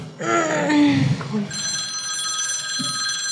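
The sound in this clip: A telephone rings with an incoming call on a call-in line. A voice speaks briefly at first, then a steady, high electronic ring sounds continuously to the end.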